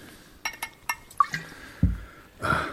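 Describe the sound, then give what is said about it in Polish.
Homemade liqueur poured for drinking: a few light glassy taps and clinks, then a short liquid pouring splash at the end, all fairly faint. “Zaraz, najpierw się napijmy. Nalewka mojej roboty. Mocna!”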